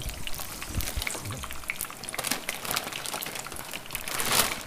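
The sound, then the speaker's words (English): Sizzling and crackling of food frying in very hot deep oil, a dense, steady spatter of fine pops with no voices, growing a little louder near the end. “in deep oil that of course needs to be really hot, and that's what I'm doing now”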